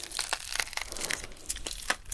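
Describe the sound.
Crisp crinkling and crackling as layers are peeled away, made up of many short, dry rustling bursts at an uneven rhythm.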